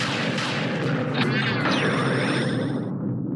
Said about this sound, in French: What was that? Are you okay? I'm better than okay. I feel super. Oh no, Anna was just hit by lightning.